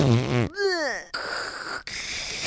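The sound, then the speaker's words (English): A voice imitates fart noises: a buzzy vocal squeal that slides downward in pitch, followed by two raspy, blown bursts. “I just make fart noises.”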